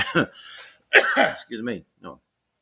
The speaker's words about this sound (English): I know somewhere there's a cough button, but I didn't catch it in time. Sorry about that.